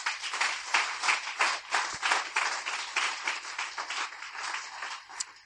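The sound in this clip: Applause from a church audience, dense and steady clapping with a broad hiss-like texture, sustained and fairly loud throughout without a break.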